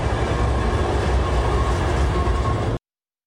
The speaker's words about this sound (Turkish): Pasaport kontrolü sonrası İstanbul'a doğru yola çıkan tren 2 Ekim'de Paris'e dönecek.